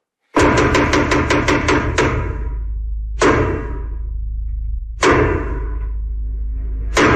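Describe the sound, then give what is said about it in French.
Traditional theatre knocks signal the start of a play: a rapid run of hard wooden thuds, then slow, widely spaced heavy blows, each ringing out briefly before the next. “les 12 coups de théâtre ont sonné.”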